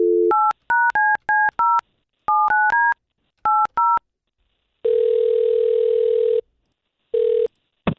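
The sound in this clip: Touch-tone telephone dialing to place a call: a dial tone, then a quick series of about ten beeping keypad tones in irregular bursts, followed by a long steady ringback tone and the start of a second ring.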